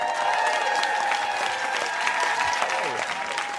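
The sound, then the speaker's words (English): A studio audience on a talk show applauds a comedian guest. The clapping is loud and continuous, with an even, dense texture throughout and no speech over it. “Please put your hands together for the hilarious, talented, and when it comes to The Batman, dead wrong, maybe, Joelkin Booster.”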